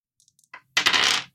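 Four six-sided dice are rolled in a tabletop roleplaying game. A few faint ticks lead into a short, loud rattling clatter of about half a second, with no talk.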